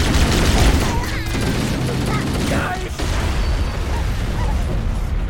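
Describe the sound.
A grenade explosion in a video game lands as a heavy low boom at the start, then gives way to rapid crackling bursts of gunfire and clattering game effects that carry on at a fairly steady level.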